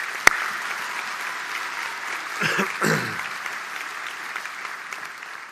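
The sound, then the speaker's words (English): Audience applause for Dean Levine at a 2016 UCLA School of Education graduation ceremony: a dense, steady wash of clapping with one sharp crack near the start and a brief swell midway. “So if we could give it up one more time for Dean Levine.”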